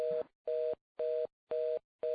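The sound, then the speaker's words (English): Telephone busy signal on the line: a steady two-note tone pulsing in five short, even bursts with equal silences between them, the last burst cut off. No voices are heard. “Oops, who's that? A busy call?”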